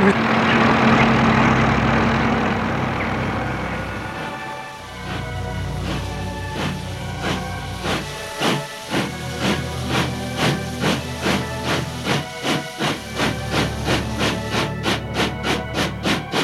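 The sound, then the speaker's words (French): A steam train bound for Paris gets moving: a loud hiss of steam first, then rhythmic heavy chuffs that grow quicker and more regular as it picks up pace. “Ensuite, ils prennent le train.”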